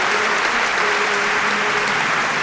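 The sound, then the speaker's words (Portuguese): Applause from a studio audience welcoming a guest onto a variety show stage: a loud, dense, continuous wash of clapping that holds steady throughout. “Palmas para Heron Domingues! Mais palmas, gente!”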